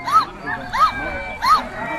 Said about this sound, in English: This dog is so happy, he's lost his voice.